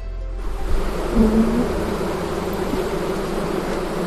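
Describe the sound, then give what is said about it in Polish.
A dense, steady buzzing drone rises from a beehive as frames of ripe honey are pulled out during the honey harvest. The low hum holds evenly throughout. “Także tutaj słyszycie Państwo dźwięk, jaki wydobywa się z ula podczas podbierania miodu.”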